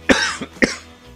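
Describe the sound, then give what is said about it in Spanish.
Coughing from a person with a bad cough, a few harsh bursts with two strong hacks separated by a weaker one, each short and breathy, loud against a quiet background. “Vaya mierda de tos.”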